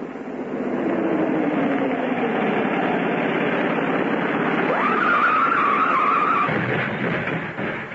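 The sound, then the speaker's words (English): An old car's engine roars steadily as it runs down a hill, and its tires let out a high, sustained squeal as it skids on a turn midway, with the engine noise thinning slightly at the end. “I should have gunned the motor even more on the turn. I would have made it then.”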